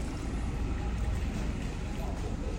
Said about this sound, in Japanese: なんかよそのカートの音の方がしてるぐらいかな、他の車のエンジン音が聞こえます